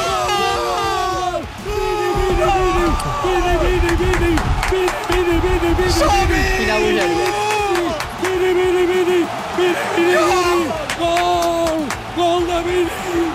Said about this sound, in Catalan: Embogeix el públic! Embogeix el públic!